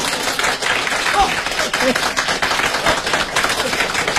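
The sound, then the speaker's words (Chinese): Audience applause at a comedic stage performance: dense, even clapping from a crowd that stays loud and steady throughout, without a clear break. “大家给他鼓鼓掌”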